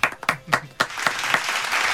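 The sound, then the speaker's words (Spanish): Applause in a radio studio after thanks given on air. A few separate, sharp claps come first, then the clapping quickly thickens into a steadier, denser patter. “¡Aplauso!”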